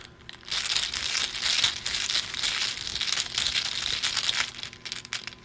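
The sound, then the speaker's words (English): Papery rustling and crinkling as a card is drawn from a deck during a tabletop card game. It is soft and continuous, running for a few seconds with no talk. “Draw my Mythos card as a Twist of Fate again.”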